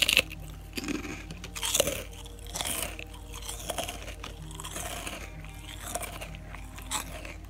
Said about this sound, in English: That's the sound of krupuk when it's bitten.